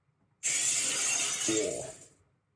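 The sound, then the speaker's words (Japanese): Glass shattering as a sound effect: one sudden, loud, bright crash of breaking glass that sprays on for over a second, with a lower crunch near the end before it fades out. “ガラスが割れる音”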